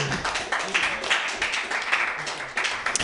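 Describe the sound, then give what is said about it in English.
Crowd applause for a comedian at a comedy workshop: thick, busy clapping that keeps going for the whole stretch, loud and uneven in texture. “Put your hands together, everybody.”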